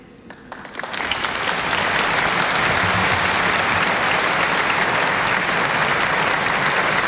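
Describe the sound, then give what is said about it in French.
Loud, dense applause from a large crowd at a prayer service during a papal visit as a bishop embraces the Pope, swelling within the first second and holding steady to the end. “On entend Monseigneur Ballot, archevêque, évêque de Metz, qui maintenant va donner l'accolade au pape Léon XIV sous les applaudissements.”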